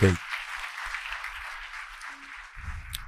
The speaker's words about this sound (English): Come on, put your hands together and give the Lord a hand clap of praise